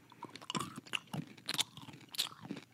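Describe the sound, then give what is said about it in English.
Crunching and chewing of a crunchy caramel candy bar: a series of irregular crisp crunches, loud and close, with no talk over them. “A little chewy. You don't taste the caramel at first.”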